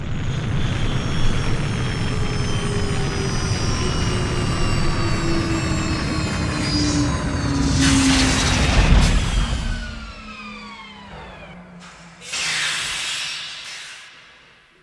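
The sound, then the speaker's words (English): A time capsule makes a heavy landing: a loud, sustained engine-like roar with whining tones that glide steadily downward, broken by a hissing burst and a thud, then a second rush of hiss as the drone fades. “Wow, that was a heavy landing.”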